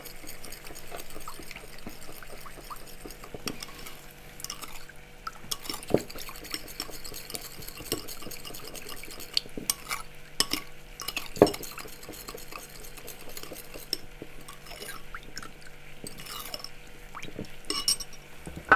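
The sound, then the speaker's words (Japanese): Stirring of a sauce mixture in a bowl for Chinese-style cooking: a utensil scrapes and clinks against the bowl in a steady run of many small, fairly faint strokes, with no talk. “でこれよく混ぜておきます”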